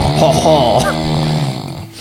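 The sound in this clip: A voice imitates light snoring in one soft, wavering voiced drone that holds for about a second and a half, then fades away.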